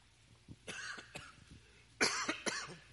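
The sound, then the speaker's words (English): A person coughs after choking on drinking water, a few harsh, breathy coughs with a brief pause midway, the last ones louder and more forceful. “How do you choke drinking water? You ever do that? I just did it.”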